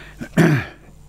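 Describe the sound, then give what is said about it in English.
A short, gruff throat clearing from someone with a frog in their throat: one voiced rasp lasting about a quarter second, then quiet. “Oh, excuse me, got a bit of a frog in my throat.”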